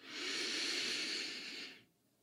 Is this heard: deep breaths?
yes